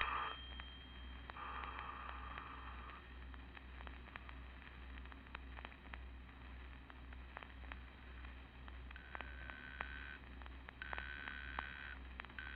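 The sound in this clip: An old-style telephone rings and is left unanswered, faint bursts of ringing tone that come and go a few times over a low hum, with scattered soft clicks and no voices.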